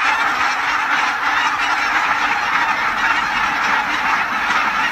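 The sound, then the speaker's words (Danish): Barnacle geese flapping in a flock over fields in the region, many overlapping honks merging into a loud, continuous, steady chorus for the whole stretch. “sådan lyder det altså typisk, når bramgæssene de kommer baskende hen over markerne her i regionen.”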